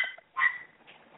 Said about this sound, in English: I'm sorry for the dog in the background. It's a little crazy.